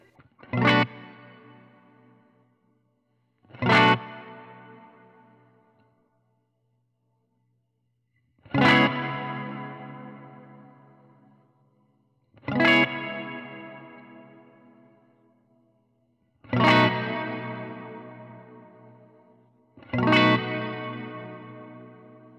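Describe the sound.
Electric guitar played through an Earthquaker Dispatch Master pedal set for modulated reverb. Six separate strummed chords each ring out into a long, shimmering, wavering tail that fades before the next strum, with no talking.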